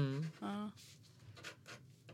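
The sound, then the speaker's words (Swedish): Scratchy strokes of coloured pens drawing on paper, a few quiet rasping bursts after a short stretch of talk at the start. “Roligt att du vill rita med mig. Ja. Verkar bra de där pennorna.”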